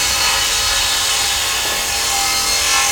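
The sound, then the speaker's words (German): A large circular table saw, lowered by a lever, cuts through a brick pushed forward with a pusher, giving a loud, steady, coarse grinding roar that runs unbroken throughout. “Jetzt klappt er an einem Hebel die große runde Säge zum Ziegel auf dem Tisch herunter. Die Säge fängt an, sich zu drehen und er schiebt den Ziegel mit einem Drücker nach vorne.”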